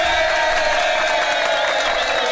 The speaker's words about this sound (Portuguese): Essa vinheta aí tá proibida, que você bota sempre pro Caiá, viu? Não vai não! Ele não vai não! Tá proibida essa vinheta aí que você bota pro Caiá.